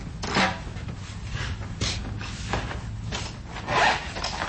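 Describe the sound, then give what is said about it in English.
A local artist draws a charcoal portrait from life at Saw Studios in Carbondale: soft, rasping strokes of charcoal on paper, with several longer, louder swishes among steady scratching. “The sounds of a local artist drawing a charcoal portrait from life at Saw Studios in Carbondale.”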